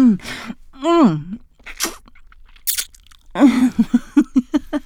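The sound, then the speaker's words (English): Mouth-made chomping and biting sounds in a roleplay, a voice imitating a bite on the neck: drawn-out voiced groans first, then a crisp burst and a quick run of several wet chomps. “Chomp your neck.”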